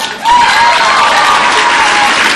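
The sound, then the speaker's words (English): A dense, loud wave of audience applause welcomes a speaker, building over the first moment and then holding steady as a continuous roar of clapping. “Lo and behold, I don't get that kind of an applause.”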